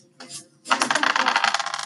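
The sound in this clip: Dice rolling during a tabletop role-playing game: a brief rattle, a short pause, then a longer, fast, dense clatter of hard bouncing clicks.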